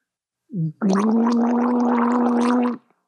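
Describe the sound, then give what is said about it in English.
A person gargles water: a brief bubbly burst comes first, then a steady, loud, throaty gurgle lasts about two seconds and stops abruptly. “That's to gargle. That's just an extra little bonus for listening to this episode. You get to hear me gargle.”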